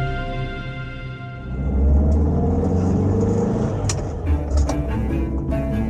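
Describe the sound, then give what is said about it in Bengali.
A car drives along National Highway 6 after clearing town traffic, its engine and road noise making a steady low rumble that swells after about two seconds, with a few sharp clicks near the end. “শিবপুরে traffic আর ঘন বসতি পেরিয়ে national highway number 6-এ আমাদের গাড়িটা পড়তেই যেন একটা নতুন জগতে এসে পড়লাম।”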